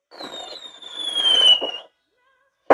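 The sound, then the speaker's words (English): A firework rocket launched for a birthday gives a steady, high whistle that sinks slightly in pitch over nearly two seconds above a loud hissing rush, then cuts off, and a sharp burst follows after a short gap. “That's the expensive fireworks that I have.”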